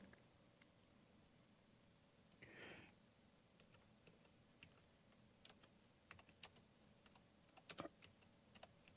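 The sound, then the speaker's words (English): Notes are typed on a computer keyboard as faint, sparse key clicks, irregular and light, growing more frequent toward the end with a few sharper taps clustered together. “I'm reading because I'm typing notes.”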